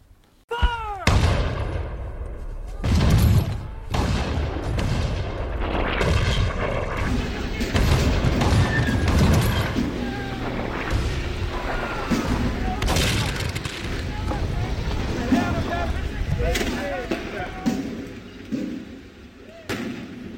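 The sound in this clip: Shrapnel shells exploding in battle, heavy booms and sharp cracks piling into a continuous, loud roar of gunfire and explosions throughout.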